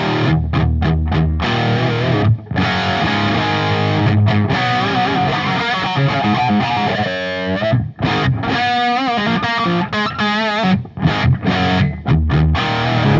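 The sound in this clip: Loud, distorted electric guitar through an amplifier, a copy of a '78 model with a master volume, giving a thick, chunky tone. It plays continuous chords and riffs, with brief pauses near 2 and 8 seconds and no talking.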